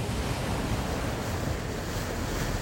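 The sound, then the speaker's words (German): Heavy waves crash against a sailing ship on icy northern seas, a dense, steady roar of surf and rushing wind noise that holds at the same loud level throughout, with no voices. “Schwarze, gold, rot und silber gefütterte Wellen krachen gegen das Schiff.”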